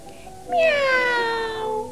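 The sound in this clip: A cat gives one loud, drawn-out meow lasting over a second. Its pitch slides steadily downward before it fades.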